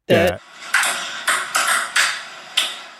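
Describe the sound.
Ping pong balls bouncing on a table during casual play, tapping out the rhythm of the Mario theme: a short run of sharp, bright clicks in an uneven, tune-like pattern, following a brief louder opening sound.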